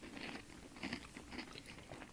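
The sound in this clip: People chewing and eating food, quiet crunchy bites and steady mastication repeating through the moment, with no voices.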